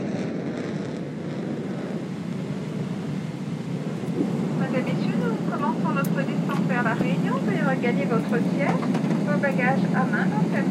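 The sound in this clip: Airplane engine drone during flight just before landing: a steady, loud, low roar that continues throughout, with a voice talking over it from about midway.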